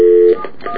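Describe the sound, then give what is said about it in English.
Telephone keypad dialing of 711 produces a clear, steady DTMF beep at the start, followed by a few fainter, shorter tone bursts. “Let's just dial 711, because I think that's what it is.”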